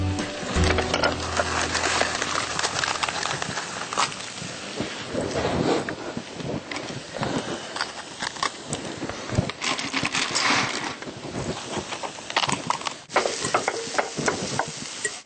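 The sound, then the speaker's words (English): Stirring of a food mixture with sage just added gives a continuous scraping and rustling as the ingredients are mixed, steady and moderately loud throughout, with no voices. “Yeah, that's sage. Yep, and mix that up.”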